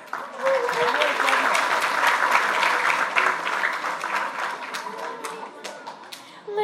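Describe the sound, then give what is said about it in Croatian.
Audience applause at a royal games event as its anthem is about to play: a thick run of claps begins abruptly, holds steady, then thins toward the end before swelling again, with voices underneath. “Poslušajmo je uz glazbeni predah i podržimo ih pljeskom, a možemo malo i zapjevati s njima.”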